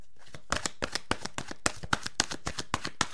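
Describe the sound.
A deck of message cards is shuffled by hand, giving many crisp, papery flicks and snaps in a quick, uneven rhythm, fairly quiet and with no talk.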